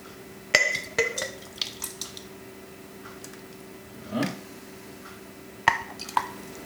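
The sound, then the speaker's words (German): Homemade bolognese sauce is filled into a glass jar for canning: faint, sparse clinks and taps against the glass, with one soft wet glop of sauce partway through. “Und jetzt kommt die Bolo da rein.”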